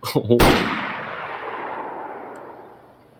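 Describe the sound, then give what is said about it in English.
A single loud shot from the Longhorn gun in a video game: a sharp blast followed by a long, slowly fading tail, with a brief voice just before it. “No actual gun animations, but you can shoot the gun and shit like that.”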